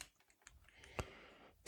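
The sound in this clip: Faint typing on a computer keyboard, in a few scattered light key clicks with short gaps between them, while answering a question in a chat.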